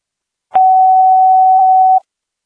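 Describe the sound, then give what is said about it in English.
Fire department dispatch test tone for a medical call: a single loud, steady mid-pitched beep. It holds one even pitch for about a second and a half, then cuts off cleanly, with no voices. “Pleasant Hill Medic 65, Medical, Test Tones Only, Pleasant Hill Fire Department PHFD”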